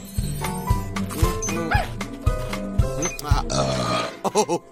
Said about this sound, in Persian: چه صدای بلندی داشت بیلیپی. نمیدونم چرا مردم باد گلو میزنن؟